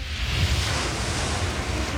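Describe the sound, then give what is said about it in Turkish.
Ocean waves break over a reef in a strong current with erratic swells, making a continuous, loud, roaring wash of noise with no distinct separate crashes. “Akıntı buradaki resifleri paramparça ediyor. Dikkatli olmalısınız. Dalgalar çok tutarsız.”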